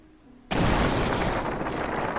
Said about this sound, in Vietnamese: Theo một tiếng nổ đinh tai nhức óc, toàn bộ thiên thạch lập tức nổ tung, hình thành ánh lửa chói sáng.